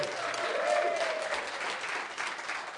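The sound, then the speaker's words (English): An audience applauds, producing steady, dense clapping that continues at an even, moderate level throughout. “Give yourselves a big round of applause.”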